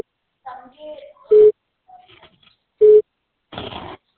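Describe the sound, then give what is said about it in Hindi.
Telephone busy signal when a dialed number is busy or unreachable: two short, steady, low beeps with a voice speaking between and after them. “आपके द्वारा dial किया गया number अभी व्यस्त है या इस समय उपलब्ध नहीं है”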